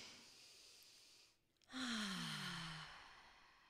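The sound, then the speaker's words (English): A deep breath: a steady, breathy intake, a brief pause, then a louder, audibly voiced sighing exhale that slowly trails off. “Everyone take a deep breath with me.”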